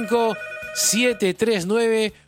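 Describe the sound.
A telephone rings with an incoming call to a call-in show, a steady electronic ring tone running beneath a man's voice that talks over it throughout.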